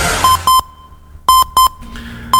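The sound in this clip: Radio time-signal beeps on an FM station: five short, steady, mid-pitched tones, loud and clean, mostly in pairs with quiet gaps between them.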